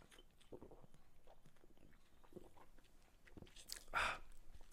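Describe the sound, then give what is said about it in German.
A drink of cold Fritz-Cola is sipped, with faint wet mouth and swallowing sounds and one louder gulp near the end. “So, jetzt muss ich mal einen Schluck Fritz-Cola trinken. Moment.”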